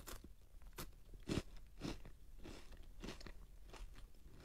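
Crisp crunches of biting into a nut-flavoured KitKat chocolate bar, several sharp, fairly faint crunching bites followed by softer chewing.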